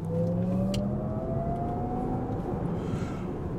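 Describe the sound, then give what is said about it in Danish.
An electric car with two electric motors accelerates, its motor whine climbing smoothly in pitch over a steady rumble of road and tyre noise, with one brief click from an object on the seat near the start. “Men nu kan I jo så høre, hvordan det lyder, når jeg træder på speederen, og den er væk fra det der lidt kunstige manuelle gearskift, så lyder det sådan her.”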